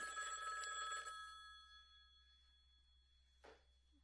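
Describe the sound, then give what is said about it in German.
A telephone bell rings in a film, a bright trilling ring lasting about a second before fading out, followed by a short, faint burst near the end. “Aber, oh ja, das Telefon. Oh je.”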